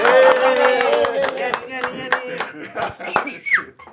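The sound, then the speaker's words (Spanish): Scattered applause with many irregular hand claps, sharp and uneven, mixed with loud, animated talking voices throughout. “¡Aplausos!”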